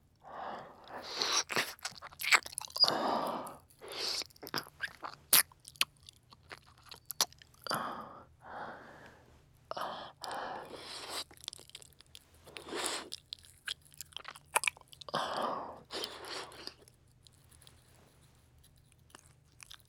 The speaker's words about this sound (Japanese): 耳、舐められるの好きですか？耳に舌を差し込んで、